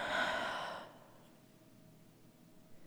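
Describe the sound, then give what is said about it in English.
A deep breath, heard as a single breathy rush of air lasting under a second, followed by near silence with only faint low hiss. “take a deep breath in Take a deep breath out.”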